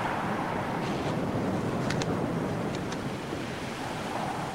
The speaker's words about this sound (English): She sits alone on the pebbles facing the sea.